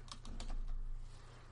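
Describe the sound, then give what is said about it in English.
Typing on a computer keyboard in the dark during a quick web search: a short, fairly faint run of clicking keystrokes with no voices. “I'm trying to type in the dark here.”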